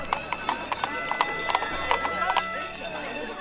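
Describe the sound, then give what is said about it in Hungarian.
Clip-clop of hooves from donkeys pulling a cart: a steady run of many crisp, evenly spaced clops over a dense, noisy background. “Nézd! Ott pár csacsi húzza!”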